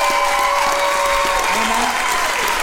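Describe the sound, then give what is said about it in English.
Audience applause at a church gathering, a loud, dense and continuous clapping from many hands with crowd voices mixed in, sustained evenly from start to end. “Can you just put your hands together tonight?”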